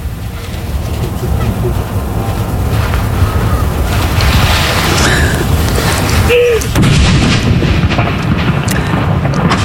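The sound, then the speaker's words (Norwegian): Ceremonial cannon salute fired at Akershus Fortress, heavy booming blasts over a constant, loud low rumble of outdoor noise. “Rett til kanon!”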